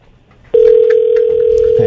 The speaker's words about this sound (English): This number has call control. To get through, please press 8. Yeah, well, she's not done yet. Beep. Beep, beep, beep, beep, beep. Beep.